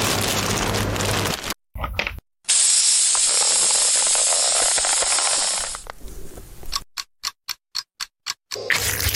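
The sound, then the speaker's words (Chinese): A vacuum sealer draws air out of a bag of meat rubbed with garlic powder, coriander seed powder and smoked paprika. A loud, steady hissing whir runs for a few seconds after brief bursts, then fades into a series of sharp clicks. “然后这时候我们需要抽真空。”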